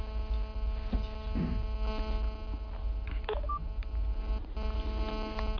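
A telephone call is dialed, with a few brief, thin dialing tones over a steady, low mains hum.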